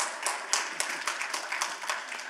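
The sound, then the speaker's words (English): Applause from a church audience in a Civic Center hall, welcoming online viewers: many overlapping hand claps forming a steady, fairly faint patter for the whole stretch. “Those in the room at the Civic Center, throw your hands together today and welcome those joining us online.”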